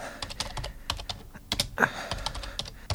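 Fingers type a date and a name into a search engine on a computer keyboard, with many rapid, uneven key clicks in a continuous burst and no talking.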